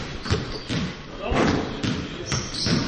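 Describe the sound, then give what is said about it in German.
A basketball is bounced and passed back and forth on a court near the basket and at midcourt, making several dull thuds at irregular intervals over a few seconds. “Sie stellen sich unterm Korb und in der Mitte des Spielfeldes auf und beginnen damit, den Ball hin und her zu prellen und zu passen.”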